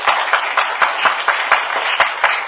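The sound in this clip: A church audience applauds a new believer and his family with loud, brisk clapping, the claps falling in a steady, rhythmic pattern throughout.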